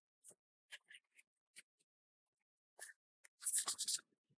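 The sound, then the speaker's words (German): Pen scratching out an entry in a guest book, faint short strokes in scattered bursts, ending in a denser flurry of scribbling. “Und bevor wir die Sendung beenden, gibt es noch den Eintrag ins Gästebuch der Riesen.”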